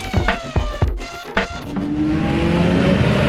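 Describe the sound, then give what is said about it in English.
Endurance race cars pull away from the starting grid at the Le Mans 24 hours, with a few sharp bursts of engine noise at the start giving way to a sustained, building roar of many engines. “This is the sound of the Le Mans 24 hours as the cars leave the grid.”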